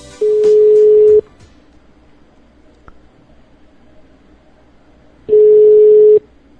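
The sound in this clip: Two long, steady telephone tones during an outgoing phone call, each lasting about a second, separated by a quiet gap of roughly four seconds with a faint hiss underneath.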